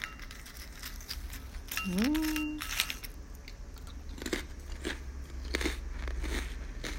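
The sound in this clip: Crunching and chewing of a crisp snack from a 50 g bag, with many quick, dry crackling bites following one another at a soft, steady level and no talking.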